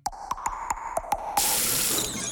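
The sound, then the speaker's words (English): Water from a cold shower turned on after a quick run of sharp, evenly spaced clicks, then bursting into a steady, loud hiss of spray that runs to the end. “Nothing humbles you like a cold shower.”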